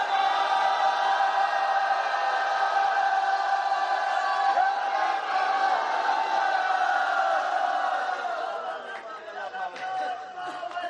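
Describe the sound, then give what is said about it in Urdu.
A crowd shouts a slogan together, with many voices joined in a loud, sustained chant that holds steady and eases slightly toward the end. “رل کے نعرہ مارو رل کے مولا سارا”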